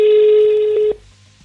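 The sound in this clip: A telephone tone sounds while a number is being called: one loud, steady pitched tone holds for just under a second, then cuts off into near silence.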